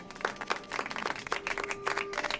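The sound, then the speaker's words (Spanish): Group applause welcoming a new member: scattered, uneven clapping that stays fairly faint and continues through the whole stretch. “vamos a recibirlo con un aplauso”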